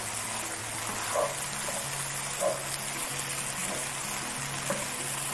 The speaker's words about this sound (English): You like to season as you go so that the liquid from the mushrooms comes out, the juices from the onion will all come out with the salt. I'll stir that in.